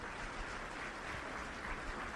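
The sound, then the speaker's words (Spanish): An audience applauds the women with quiet, even clapping that stays steady throughout. “Así de que un aplauso para todas las mujeres, porque tienen un lugar muy especial ustedes.”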